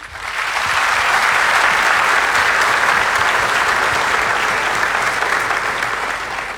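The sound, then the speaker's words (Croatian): A concert audience at a folk music performance gives loud, dense applause. The clapping swells at the start, stays steady throughout, and eases slightly at the end. “Pozdravimo ih velikim pljeskom.”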